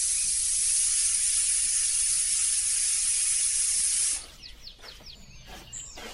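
A pressure cooker releases steam while beans cook: a loud, steady, hissing rush lasts about four seconds, then cuts off abruptly, leaving faint scattered clatter.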